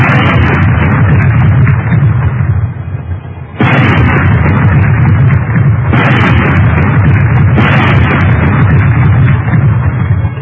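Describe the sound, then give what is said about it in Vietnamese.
Four loud gunshots boom out at uneven intervals, each slamming in sharply and trailing into a long, heavy rumbling roar that fills the gaps between shots. “bốn tiếng súng như xé màn tai mọi người”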